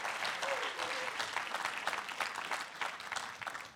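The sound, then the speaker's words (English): Congregation applause welcomes a preacher at a church service, a lively, fairly loud spread of clapping with an uneven, fluttering texture that keeps going throughout. “So can we prepare our hearts right now to receive the word and put our hands together and welcome Charles as he comes and preaches the word tonight.”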